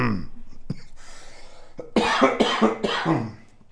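Coughing from someone with sage caught in the throat: a few harsh, loud bursts packed close together in the second half, after a quieter stretch with a single sharp click.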